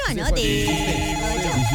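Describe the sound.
A telephone rings with a steady, tonal ringtone that runs under people talking for the whole short stretch.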